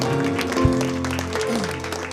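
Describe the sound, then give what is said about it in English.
A church audience claps their hands in praise during a worship service, a dense, steady patter of many hands that continues throughout, with sustained musical tones running underneath. “Give the Lord a hand clap of praise.”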